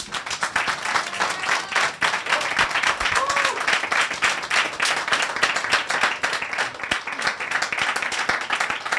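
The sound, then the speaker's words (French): Applause from an audience, a dense and sustained wash of clapping that holds at a steady, fairly loud level for about nine seconds without a clear break. “Julie, et je vous demande une salve d'applaudissements”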